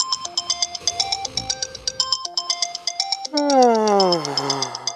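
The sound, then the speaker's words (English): A phone alarm ringtone goes off in the morning: a rapid, repeating electronic melody of bright beeping notes. Near the end, a voice-like sound with falling pitch joins in. “You wake up to your alarm ringing, you turn it off, and bring your phone back to bed with you.”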